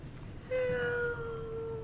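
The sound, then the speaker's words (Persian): A person imitates a cat's meow with one long, drawn-out, held call at a fairly steady pitch. It begins partway in and lasts to the end over a low background hiss. “خودش صدای گربه در میاره.”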